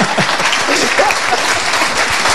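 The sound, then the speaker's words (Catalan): Audience applause for a guest: thick, continuous clapping from many hands, even in loudness for the whole couple of seconds with no voices. “Un aplaudiment.”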